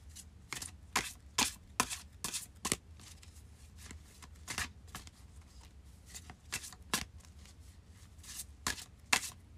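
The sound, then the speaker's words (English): A deck of Witch's Wisdom Oracle cards is shuffled and drawn from, producing many crisp, papery riffling snaps in an uneven rhythm, some bursts sharper and louder than others, with no talking. “So let's pull a Witch's Wisdom Oracle card.”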